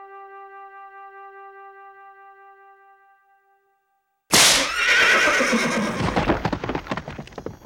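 A horse whinnies in a sudden loud burst after a sustained tonal chord fades into silence. Quick rhythmic hoofbeats follow, pulsing steadily to the end.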